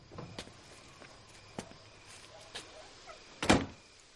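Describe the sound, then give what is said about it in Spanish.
A car door shuts with one heavy thunk near the end after the car is parked and the driver gets out, preceded by a few faint clicks and light handling noises. “Walt conduce su coche por el barrio de Jesse. Aparca el coche y se baja.”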